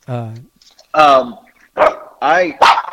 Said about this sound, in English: this dog won't shut up.